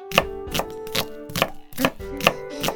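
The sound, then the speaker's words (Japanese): A knife minces onions on a cutting board in sharp, even chops, about seven strikes in a steady rhythm with nothing else heard. “音が気持ちいいでしょ。そうそう、簡単に飴色の玉ねぎを作るためにみじん切りにしてるの。”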